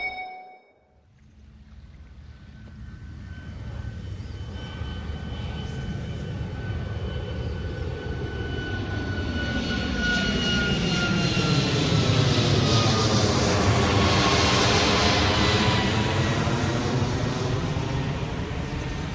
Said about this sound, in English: That is a Singapore Airlines Boeing 737-8 heading north out of Changi Airport. I'm directly under the flight path for takeoffs from runway 1.